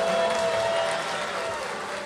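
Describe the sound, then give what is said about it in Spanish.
Audience applause for a band, a dense, continuous wash of many hands clapping at an even, strong loudness throughout, with no distinct voices. “Yo creo que ese aplauso va para mi banda. Un aplauso para mi banda.”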